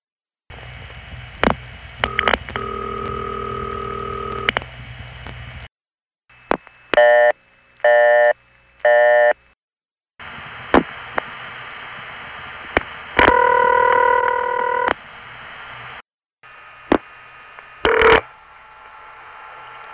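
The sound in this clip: Telephone switching signals from a 4A office calling a crossbar 5 switch: several separate examples of short multifrequency tone bursts and sharp clicks over a low line hum, split by brief silent gaps.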